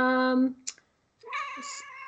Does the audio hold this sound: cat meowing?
yes

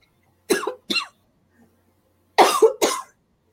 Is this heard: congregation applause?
no

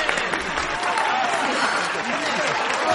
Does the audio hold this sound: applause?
yes

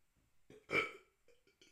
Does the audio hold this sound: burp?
yes

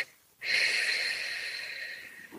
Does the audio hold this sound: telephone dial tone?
no

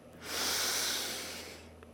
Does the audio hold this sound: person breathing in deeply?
yes

